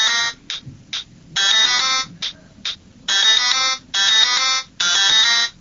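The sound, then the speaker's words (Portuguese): A mobile phone ringtone plays an electronic melody in bright, harmonic bursts. Short blips alternate with longer sustained phrases in a repeating pattern, loud and with no talking. “quando aquela ex-namorada que faz tempo que você não vê tocar para você, ou o celular poderia dar esse toque.”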